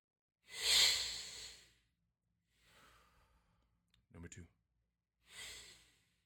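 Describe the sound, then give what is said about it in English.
Deep breaths taken by a person: a few slow, breathy inhales and exhales separated by pauses, the first loudest and the later ones softer, with a brief voiced sound between them. “Take three deep breaths.”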